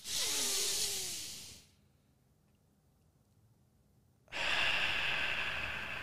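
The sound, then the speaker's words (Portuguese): Deep breathing during a guided gratitude exercise: two long, airy breaths separated by a quiet pause of about two and a half seconds. Both breaths are full and steady, with no talking. “Respira fundo.”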